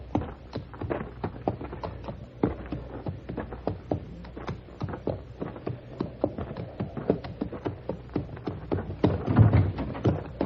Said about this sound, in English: Wedge this pebble between the shoe and the hoof of my horse. What for? They're mine. Now, you stay out of sight until Ludlow and his man ride out.